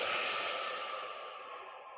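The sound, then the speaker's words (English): A long, slow exhale after holding the breath at the top during a guided breathing exercise, a soft, steady airy rush that gradually fades away. “Holding at the top and then exhaling”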